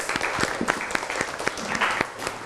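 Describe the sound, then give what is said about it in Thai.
A class of students applauds a classmate's answer in a loose, uneven patter of many hands, with a few sharper claps standing out at a moderate level. “เป็นคำตอบที่ดีปรบมือให้เพื่อนหน่อยครับ”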